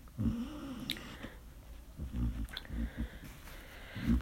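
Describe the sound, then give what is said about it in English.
A dog dreaming in its sleep makes faint, muffled huffs and low whimpering snuffles in a few short, quiet bursts separated by near silence. “And if you hear a weird noise in the background, the dog is having a little dream.”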